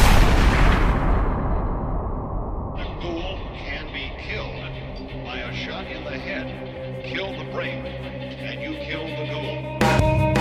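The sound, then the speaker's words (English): Gunshots blast in a dramatized scene where authorities shoot a man, with a loud, crashing burst at the start that decays into a sustained tonal backdrop, and another sharp burst near the end. “The authorities took one look at him, pulled their triggers, and blasted him away.”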